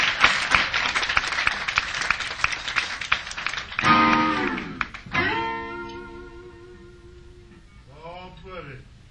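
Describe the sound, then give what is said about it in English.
Applause for a band's drummer at a live show: brisk crowd clapping fills the first few seconds, then fades as a speaking voice and tonal sounds take over. “The drummer, let's give David a big round of applause.”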